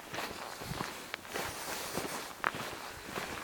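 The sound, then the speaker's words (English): Footsteps of a person walking in the dark with a headlamp, a series of soft, fairly regular steps with one sharper step near the middle, faint and with no talk. “I've got still a couple of hours of walking to do here. It's dark. I've had that headlamp on for quite some time now.”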